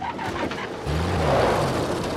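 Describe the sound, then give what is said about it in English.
A truck's engine works as the driver changes gear and the vehicle pulls free, rear wheel spinning in dust; a hissy rumble gives way to a steady low engine drone that holds to the end. “the rear wheel spinning in the dust. He changes gear and the truck pulls free.”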